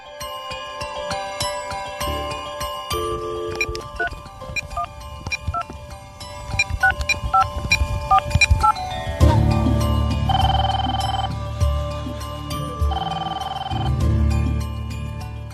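A phone line dials and rings to connect a caller, with short electronic dialing tones and chimes followed by repeated, evenly spaced ringing bursts.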